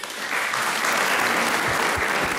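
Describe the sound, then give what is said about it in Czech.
Audience applause, with Jiří Suchý among those clapping: dense, steady clapping that swells in at the start and then keeps up at an even, fairly loud level to the end. “Tleská i Jiří Suchý, mistře legendo.”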